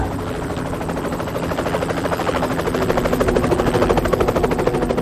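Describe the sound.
A helicopter slowly descends over a field, its rotor beating in a fast, steady, pulsing chop over a heavy engine whine that grows gradually louder.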